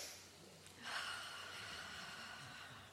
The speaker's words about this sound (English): Deep breath in.